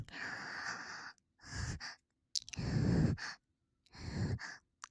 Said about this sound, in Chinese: 喘息着。